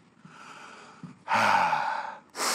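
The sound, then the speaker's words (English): Heavy, breathy panting from a person catching their breath partway through a Sunday school lesson: a soft, airy breath, then a loud, long rushing breath, and the start of another strong one, with no speech. “Need to catch my breath.”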